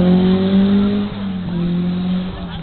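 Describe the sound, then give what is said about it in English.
A red Alfa Romeo GTV race car accelerates around a corner, its engine a loud, steady buzzing drone that dips in pitch twice along the way. “We've got a nice red Alpha GTV coming around now. It's giving it a bit of welly.”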